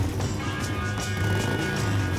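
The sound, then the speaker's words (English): A gleaming Harley-Davidson motorcycle revs and speeds out of the garage of a large white suburban home, its engine giving a loud, steady, deep rumbling throb that carries throughout. “A 40-something guy revs his gleaming Harley and speeds out of the garage of a large white home in leafy suburbia.”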